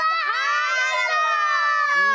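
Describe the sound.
An audience at a religious talk shouts a phrase together in unison, a loud, sustained chorus of voices lasting about two seconds.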